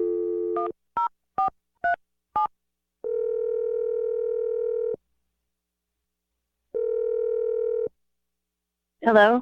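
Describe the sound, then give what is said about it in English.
A telephone keypad sends five short touch-tone beeps of shifting pitch as a number is dialed, followed by two long, steady ringing tones separated by silence. A voice begins right at the end. “I'm going to dial Melanie's number right now. Here we go.”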